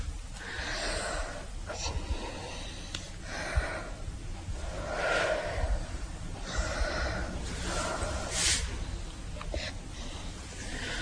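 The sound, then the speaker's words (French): Someone breathing slowly through an open mouth, each breath a soft, airy rush of inhaling and exhaling, repeated many times in a steady, unhurried rhythm at a fairly low level. “vous respirez bien la bouche ouverte maintenant.”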